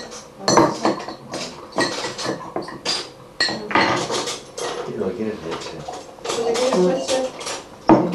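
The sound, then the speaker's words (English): Spoons and dishes being handled while a big spoon is fetched for a strawberry, giving many clinks, taps and scrapes of metal on crockery in a busy, fairly loud, continuous clatter. “I'm gonna get you a spoon. For your strawberry? You better get your big spoon for your strawberry.”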